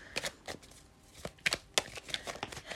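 Tarot cards being shuffled and drawn, heard as a few quick, crisp papery riffles and flicks with short gaps between them, soft and alone.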